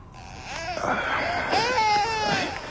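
Infant crying in a few whimpering, wavering wails, moderately loud, each cry rising and falling in pitch.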